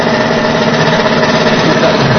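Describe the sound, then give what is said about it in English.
A motorcycle engine hits its rev limiter during a competition run, holding a loud, harsh, steady buzzing drone with rapid rough pulsing and no pauses. “Got that rev limiter.”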